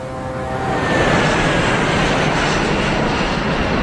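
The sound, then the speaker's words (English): An Airbus airliner on a Brisbane via Sydney flight roars low just over the fence at the end of a runway. The loud, steady jet noise swells over the first second and then holds, with a thin high whine above it. “Airbus, Brisbane via Sydney. How close are you to the end of the runway? Oh, just over the fence. Is that the runway there? Yeah.”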